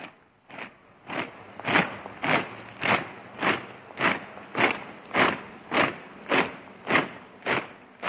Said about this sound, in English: That's the sound of German troops marching through Prague's Wenceslas Square on the 15th of March 1939.